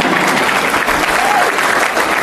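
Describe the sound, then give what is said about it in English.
An audience claps during a speech about new public school positions: a full, steady burst of many hands applauding at a strong, even level from start to finish. “Again, you should clap for that.”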